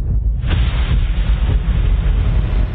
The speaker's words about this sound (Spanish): Hay como un ruido sordo muy fuerte, pero que es subaudible. Aunque si lo reproduces a mucha velocidad, no es agradable estar cerca.